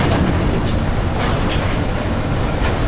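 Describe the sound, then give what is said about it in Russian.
A train pulls away with a loud, steady rumble and clatter of rolling wagons. The sound holds even throughout, with no voices. “Поезд уезжает.”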